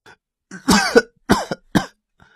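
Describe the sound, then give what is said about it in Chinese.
A man in a hospital bed, just woken after a brush with death, gives a few short, strained coughs, the first longest, then two quicker bursts. “咳嗽两声”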